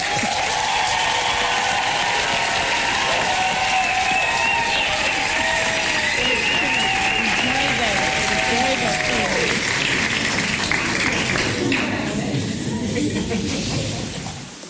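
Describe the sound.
Audience applause in Johannesburg welcoming a speaker onto the stage: a dense, loud, continuous wash of clapping from a crowd, holding steady for about fourteen seconds before starting to taper off at the very end.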